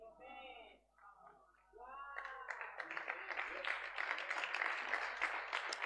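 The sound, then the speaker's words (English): A few people clap at a church conference sermon. A man's voice is heard first, then a dense, steady run of sharp claps carries on to the end. “I can see three people who have clapped.”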